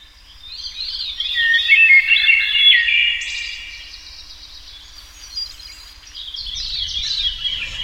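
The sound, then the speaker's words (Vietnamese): A nightingale sings by a window, a bright run of high whistled and warbling chirps that carries on for several seconds alone and rises and falls in loudness. “Bỗng nhiên, một tiếng chim họa mi thánh thót vút lên bên cửa sổ.”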